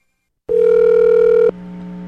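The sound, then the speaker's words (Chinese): A telephone call rings and connects: one steady, loud mid-pitched tone holds for about a second, then breaks off into a quieter, continuous tonal hum as the line opens. “电话接个靠通”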